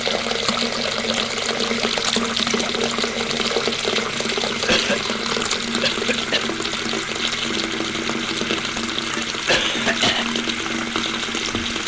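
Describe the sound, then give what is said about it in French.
Water fills a bathtub for a bath, a steady rushing gush that stays even and fairly loud from start to finish, with no talk over it. “les deux femmes nous mettent dans la baignoire Edmond pour lui faire prendre son bain.”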